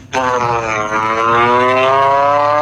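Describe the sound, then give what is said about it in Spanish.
The last race vehicle pulls away from the start line, its loud engine bursting in abruptly and then holding a strong, buzzing harmonic roar whose pitch climbs gradually as it accelerates. “13, 12, 11, 10, 9, 8, 7, 6, 5, 4, 3, 2, 1, largo el último vehículo.”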